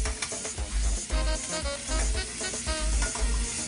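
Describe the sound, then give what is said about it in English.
Food sizzling and frying in a skillet that is being shaken and stirred, a loud steady hiss broken by repeated low bumps from the pan. “Remember what I said, when you look professional, shake that skillet. So I'm just going to give it a quick flip. And we're going to finish cooking while we're building our sauce.”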